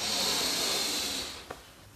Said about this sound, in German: Nimm gemeinsam einen tiefen Atemzug und atme ein.